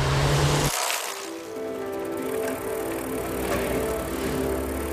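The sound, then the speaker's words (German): A bicycle is ridden on a bright day, giving a steady whirring, rolling noise with a faint underlying hum. The sound shifts abruptly near the start, then continues evenly, with no voices. “Ich fahre auf dem Fahrrad und der Tag ist hell.”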